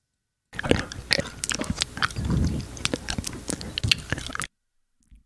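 Wet mouth noises from a man: a dense, irregular stream of many clicks, slurps, smacks and squishy splats, fairly faint, stopping abruptly into silence.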